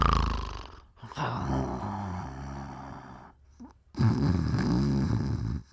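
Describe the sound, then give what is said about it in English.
A voice imitates the light snoring of a man dozing off: two drawn-out, rasping, nasal snores separated by a brief pause, the second slightly louder and rougher. “And while dozing, you'd hear him snore a little bit, like,”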